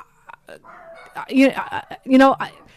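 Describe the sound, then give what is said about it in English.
Dogs bark and yip in a few high, whiny bursts, with two louder yelps standing out toward the end between softer whimpers. “I could see it going either way. And obviously my dogs agree with me.”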